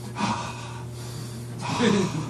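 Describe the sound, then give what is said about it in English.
Deep breaths from a person trying to relax through pain: two long, airy breaths, each drawn out and moderately loud, with a pause between them over a low steady hum. “I'm going to take some deep breaths. I'm going to relax.”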